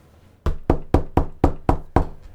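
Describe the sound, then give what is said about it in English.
Seven firm knocks on a door land in an even, fairly quick rhythm, each a sharp loud rap that decays fast, with no talk around them. “you know what to do when the door knocks”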